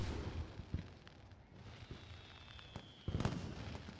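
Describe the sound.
Fireworks go off as scattered, faint pops and muffled bangs over a steady low rumble, with a thin whistling tone in the middle and a stronger burst of crackle near the end.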